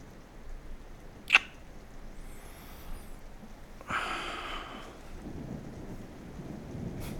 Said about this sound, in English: It's okay. It's just thunder. It's just thunder.